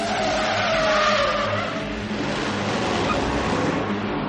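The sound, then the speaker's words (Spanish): A van speeds past with screeching tyres, giving a loud, continuous engine roar. A high tyre squeal rides over it in the first half, then rough rumbling continues. “La furgoneta de los terroristas pasa de largo a su lado.”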